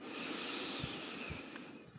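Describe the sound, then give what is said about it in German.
A deep breath during a guided breathing exercise, one long airy whoosh through an open mouth that holds steady, then thins and fades near the end, quiet with no talk. “Gerne mal durch den geöffneten Mund ausatmen und noch einmal tief ein”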